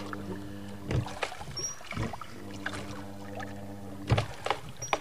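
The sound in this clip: A boat glides through water into a narrow canal between rocks, with soft lapping and a few louder splashing surges over a faint, steady low hum, all fairly quiet.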